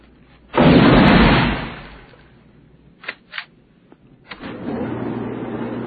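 Gunfire from armor-piercing bullets fired at a protective vest: a loud, drawn-out blast, then a few sharper, quieter pops, followed by a lingering low rumble.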